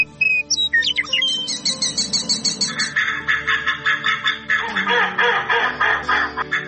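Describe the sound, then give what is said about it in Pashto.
Migratory birds call at a wetland on the edge of Kabul in spring, a loud, continuous mix of high chirps and rapidly repeated calls that pulse many times over, with no talk. “دا مرغان د هند له جنوب رالوزي او سایبریا او قفقاز ته کوچ کوي.”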